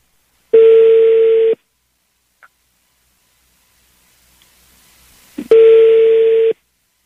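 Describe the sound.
Telephone line tones during a redial after a voicemail message: two steady, loud, mid-pitched tones of about a second each, separated by several seconds of near silence broken by a faint click and soft hiss.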